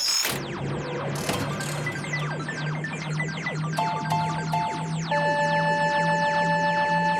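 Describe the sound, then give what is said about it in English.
A randomizer machine runs after its big red button is pressed, giving many rapid descending whistling sweeps over a clicking, ratchet-like mechanical whir, then settling into steady ringing tones near the end. “Let's hit the big red button on the machine we call the randomizer and see what we are up to next time.”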